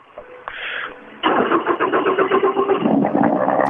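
A car engine starts, its roar bursting in loud and sudden after a quieter, murmuring opening, then running on with rough, pulsing revs to the end.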